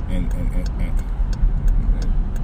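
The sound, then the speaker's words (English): A car driving in traffic: a steady low engine and road rumble runs throughout, with faint ticking above it. “I gotta fight this traffic every day out here, man.”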